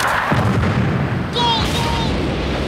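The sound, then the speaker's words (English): Explosions blast around soldiers running through a jungle, with deep booming bursts and rumbling that carry through the whole moment. “The soldiers run through the jungle as explosions blast around them, sending one of them flying through the air.”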